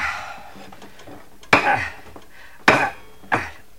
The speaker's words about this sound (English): Careful, you'll break the plate in a minute. Yeah, it doesn't seem to want to leave the spoon.